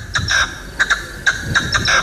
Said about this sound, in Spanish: La perdiz. Eso la perdiz. Es una perdiz. Es una perdiz.